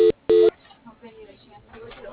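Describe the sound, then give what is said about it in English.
Two short, loud telephone tones mark a call being transferred to voicemail, followed by a voice speaking quietly over a thin phone line. “Okay, I'm going to put you into Gabby's voicemail. Hang on, thank you.”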